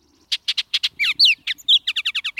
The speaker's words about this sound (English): For parents, like these Bullock's Orioles, the nest is a kind of summer cottage.